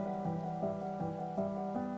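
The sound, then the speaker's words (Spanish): Rain beginning to fall in a garden with flowers: a faint, steady patter of drops with soft recurring pulses over a quiet tonal background. “Ha empezado a llover”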